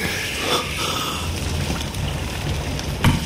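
Fire burning in a hearth, a dense and steady hiss of crackling that stays even throughout, with a slightly louder snap or pop near the end.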